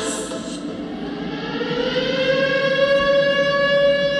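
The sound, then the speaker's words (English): A civil-defense-style siren announces the start of Shabbos with a sustained, unbroken wail. The tone rises slightly in pitch and swells louder as it goes. “That's the siren. Shabbos is coming.”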